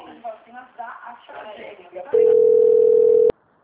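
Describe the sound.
A steady, loud single-pitch telephone tone after a dropped call. It follows a stretch of talk, holds for just over a second, then cuts off abruptly.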